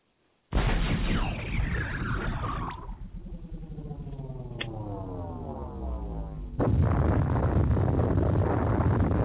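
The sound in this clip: Rocket launcher fire sound effect: an abrupt, loud blast of noise with a falling whistle, then a whining tonal roar, followed by a second, louder rush of rumbling noise that holds to the end.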